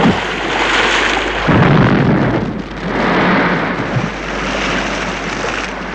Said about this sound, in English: this is the reaction when the bomb explodes and they're saved from what would have been certain death.